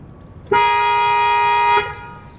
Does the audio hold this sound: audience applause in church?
no